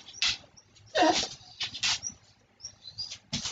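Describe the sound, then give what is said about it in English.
A dog whimpering in several short, thin, high-pitched whines with pauses between them, fairly quiet throughout. “That was my dog.”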